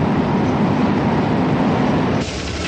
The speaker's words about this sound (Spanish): En un tranvía. Mira, mira por aquí. Observa un tren que circula sobre las vías de la ciudad.